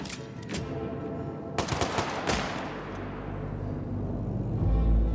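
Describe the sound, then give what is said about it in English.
Gunfire from a firing squad of hired Moroccan gunmen in the yard of Black Beach Prison: a few loud, sharp bursts of shots, followed by a rumbling, echoing tail that lasts to the end. “The hired Moroccan gunmen of the firing squad raise their weapons.”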